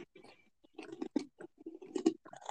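Crunchy chewing of cheese pastry sticks topped with sesame: many irregular, soft crunching bites and mouth noises, quiet and close, in an uneven rhythm with short pauses.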